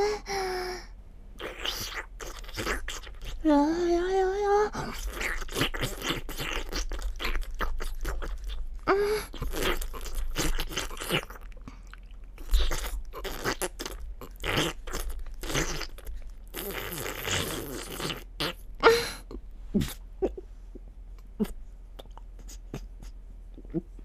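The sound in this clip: A dog eats its food with many sharp, irregular crunches and bites throughout. A brief voice cuts in early on.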